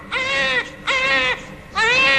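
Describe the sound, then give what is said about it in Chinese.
A baby cries in three drawn-out wailing bursts, each bright and strongly tonal, separated by brief pauses for breath, loud with no talk. “小毛娃子啼哭呀。”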